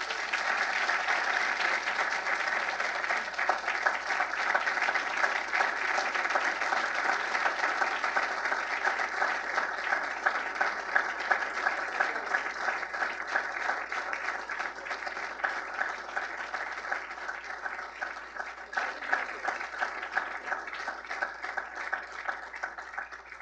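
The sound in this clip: Sustained audience applause welcomes Mike Pence as he is introduced as a speaker at the Heritage Foundation in Washington, D.C. Many hands clap in a dense, even roar that holds steady for over twenty seconds.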